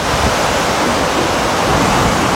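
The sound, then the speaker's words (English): Waves wash onto a beach in Cornwall, heard as a steady, loud roar of surf with no separate breaks standing out. “Yes, that's the sound of Portsmouth Beach in Cornwall,”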